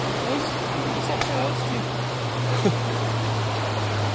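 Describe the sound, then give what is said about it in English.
A flowing river produces a steady, even rush of water that holds at the same level throughout, with a faint low hum underneath. “so we made it down, and we're now just in a very beautiful river. Just enjoying the cooler air.”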